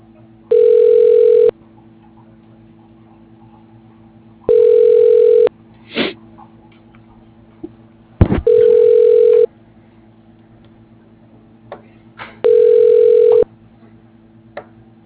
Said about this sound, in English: I'm going to connect you to the voicemail right now.